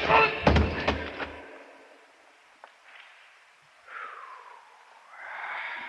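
A few heavy, dull thuds of a baseball-sized rock weighing over half a pound striking a man's head, staged as a radio drama sound effect. The blows land in a quick cluster at the start, then give way to quieter, softer sounds.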